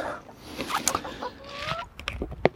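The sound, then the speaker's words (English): Chickens cluck in a garden, let out at the end of a lockdown period: several short, choppy clucks, one drawn-out tonal call in the middle, and louder sharp bursts near the end. “They're going to have them out in the garden, because today is the end of chicken lockdown.”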